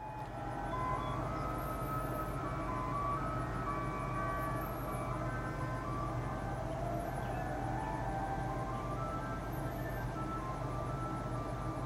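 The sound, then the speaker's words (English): An ice cream truck in a Nashville neighborhood plays its jingle as a steady, looping tonal melody, loud and continuous throughout, over a low rumbling background. “Here is a sound of an ice cream truck going by my neighborhood in Nashville.”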